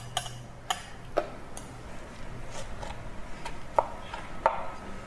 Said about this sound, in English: Okay, let me just slice into it.